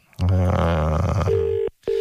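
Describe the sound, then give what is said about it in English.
Telephone tones as a number is called: a loud, buzzy sustained tone, then a steady pure beep that breaks off briefly and resumes. “Hang on, let me call my dishwasher guy 1 second.”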